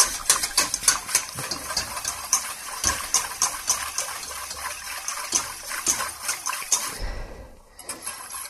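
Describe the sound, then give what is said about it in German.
A spoon stirs a sauce thickened with flour in a pot, making many quick scraping and clinking strokes in an uneven rhythm. The stirring is fairly loud, then pauses near the end before a few last light strokes. “Und wenn ihr dann nicht sorgfältig rührt, dann habt ihr dicke Klumpen drin.”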